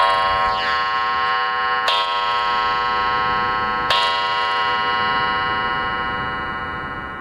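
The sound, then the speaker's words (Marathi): A clock strikes three chimes, evenly spaced about two seconds apart, each a bright metallic strike followed by a long, ringing tone that slowly fades. “तीन वाजलेत. अरे घड्याळाची गंमतच आहे बघ माझ्या. तीन टोले पडले म्हणजे दोन वाजलेत असं समजायचं.”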